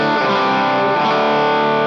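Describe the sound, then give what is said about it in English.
Overdriven electric guitar with a Megalodon pedal feeding into an AT overdrive pedal. A single loud, saturated chord rings steadily and thick with distortion for the full two seconds, with no other sounds. “Now, if I feed the Super Solo, the Megalodon, is it Megalodon or Megalodon? Anyway, whatever. If I feed that signal that I liked, I feed that into the AT, it sounds like this.”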